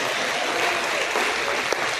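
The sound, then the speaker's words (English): A church audience claps their hands in praise during a worship service. Many hands make a dense, steady wash of applause that runs without a break, with one sharper clap standing out near the end. “Now let's give God a hand clap of praise for all that honesty.”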